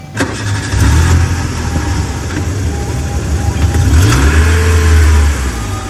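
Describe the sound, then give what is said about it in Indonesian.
A car engine cranks and fires up, then settles into a running idle before the engine note climbs as the car drives off slowly. The engine is loud, with no voices. “Kleser mobil maju lalaunan ngajungjug ke rumah sakit mun dituju ku Pak Aris.”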